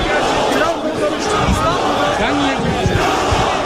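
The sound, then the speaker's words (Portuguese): A large crowd of football fans waiting for Mohamed Salah at Istanbul's Atatürk airport shouts and chants. The result is a loud, continuous roar of massed voices with cheering swells. “Uma multidão à espera do craque no aeroporto de Ataturk.”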